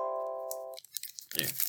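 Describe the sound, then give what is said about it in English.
Paper gift certificates are torn up: faint crackles lead into a short, crunchy ripping burst near the end, after a steady electronic tone at the start, all fairly quiet. “There. You hear that? That's the sound of their gift certificates they sent as prizes.”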